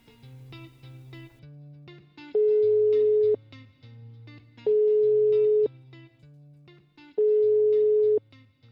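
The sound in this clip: A telephone ringing tone as a call is placed: three long, steady, evenly spaced beeps, each about a second, over a soft stepped electronic melody.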